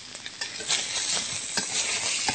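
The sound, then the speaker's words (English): Seitan browns and sizzles in a frying pan with a bright, continuous crackle, broken by several sharp scrapes and clicks of stirring. “And while this is browning, we'll just put this in the pan here.”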